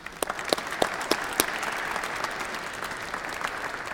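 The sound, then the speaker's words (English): An audience applauds to welcome a priest before his talk. A few distinct early claps quickly merge into continuous, moderately quiet clapping. “So let's please give a nice hand and welcome Father Anthony Wieck.”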